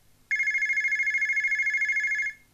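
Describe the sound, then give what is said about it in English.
A single electronic telephone ring as a woman calls a hairdresser's salon, a steady warbling trill lasting about two seconds, heard alone. “Mevrouw Houtman phones the hairdressers.”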